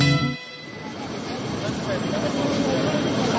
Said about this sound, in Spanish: El tren anuncia su partida desde la estación Radio Cooperativa.